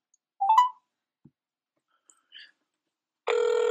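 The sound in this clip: A phone call on speakerphone goes straight to voicemail. A few faint electronic blips and clicks are followed by a steady, buzzing electronic tone that holds to the end.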